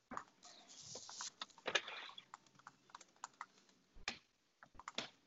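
Faint typing on a computer keyboard as someone writes an essay: irregular, quick light keystrokes with a few heavier clacks and short pauses, with no talk over them.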